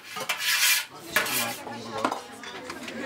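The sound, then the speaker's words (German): A cooking pot being handled at lunchtime as everything goes into it: metal clattering and clinking with utensils scraping and rattling against it, a few sharper knocks standing out over a steady scraping rattle. “Jetzt ist alles hier im Topf.”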